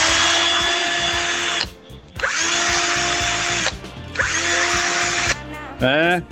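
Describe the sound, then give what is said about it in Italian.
An electric screwdriver runs with a steady, high-pitched whine in three sustained bursts separated by short pauses, and a voice comes in briefly at the end. “questo è un avvitatore. Dai, parti in pole position. Comprati un avvitatore serio.”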